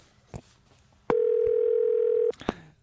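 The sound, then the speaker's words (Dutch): A telephone line tone while a call is being placed: a steady, loud mid-pitched tone lasting just over a second, framed by a few sharp clicks and line noise before and after. “Dus we gaan eventjes bellen met eh, mevrouw Thea Cox.”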